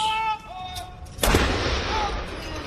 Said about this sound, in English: A 96 gun salute.